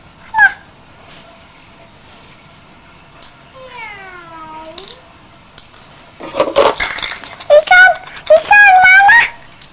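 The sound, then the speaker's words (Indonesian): A cat meows with one long, drawn-out wail, and shorter high cries and bursts of sound come before and after it. People talk nearby. “Ikannya diambil meong tuh. Nah, lo mana ikannya? Kucing jangan ambil ikanku bilang.”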